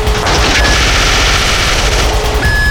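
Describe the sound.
Gunfire erupts during a shootout in an office building: a loud, dense barrage of rapid shots that blur together without a break for the whole stretch.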